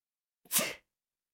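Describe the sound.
A single sharp human sneeze, a loud, brief burst that rises quickly and trails off within a fraction of a second, surrounded by silence.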